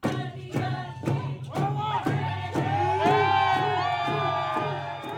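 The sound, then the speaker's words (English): Crowd at Juneau airport welcoming an Emmy-winning writer with song and dance: a steady, evenly spaced drumbeat drives loud group singing and chanting voices throughout. “Juneau residents welcomed Twitchell at the airport Sunday night with song and dance. A supporter shared this audio.”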